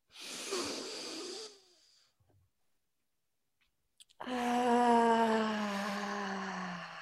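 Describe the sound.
Deep breathing in a breath exercise: a breathy intake of air, then a quiet pause, then a long voiced exhale like a sighing moan that sinks slowly in pitch and stays loud to the end.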